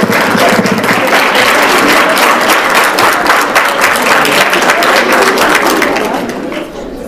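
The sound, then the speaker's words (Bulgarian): Dense, steady applause rings out for Erasmus+ project winners at an awards presentation, many hands clapping loudly and continuously before tapering off at the very end. “Аплодисменти за тях.”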